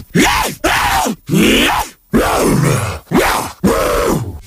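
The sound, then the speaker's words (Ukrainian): Zombie groaning effect: six rasping, drawn-out vocal groans in a row, each swelling and sagging in pitch, separated by short gaps. “Звук зомбі. Звучить він ось так.”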